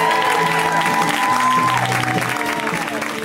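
Audience applause as a comedian is welcomed to the stage: a loud, dense, steady wash of clapping that holds throughout and eases only slightly at the end.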